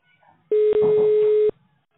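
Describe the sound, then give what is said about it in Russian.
A telephone keypad tone sounds on an automated line while dialing an internal extension at a meat processing plant: a steady mid-pitched electronic beep lasting about a second, with a brief break near its start, heard alone. “Наберите, пожалуйста, внутренний номер”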